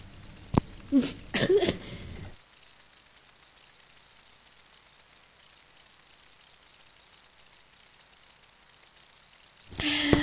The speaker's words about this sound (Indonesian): maaf, ini batuk lagi nih